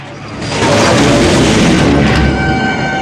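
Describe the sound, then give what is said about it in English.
Cadillac smashing into a person and crushing her against an abandoned car: a loud, dense crashing roar that swells within the first half-second and stays heavy and sustained to the end. “Maggie stands unflinching as the Duke's car smashes into her.”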